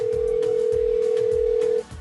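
A steady telephone dial tone sounds while a call is being placed: one unbroken, single-pitched tone at constant loudness over a low background rumble, cutting off abruptly just before the end.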